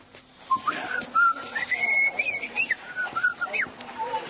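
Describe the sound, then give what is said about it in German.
A person whistles a bright, lilting melody of many quick notes, some sliding up or down in pitch. The whistling comes in a fairly loud, continuous run with brief breaks. “Und hör auf zu pfeifen.”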